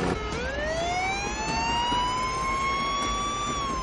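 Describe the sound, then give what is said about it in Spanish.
An ambulance siren wails in one long, sustained tone that jumps up near the start and then climbs slowly, sounding clearly over a low engine rumble from traffic on the road. “El camión acelera bajo el puente. La ambulancia se detiene en medio de una carretera.”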